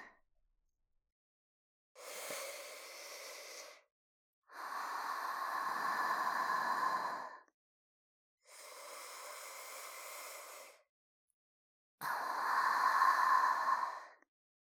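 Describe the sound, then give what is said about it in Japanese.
Slow deep breathing by a person calming down before a physical examination, four long, noisy breaths in an even rhythm with silent gaps between them. “深呼吸。”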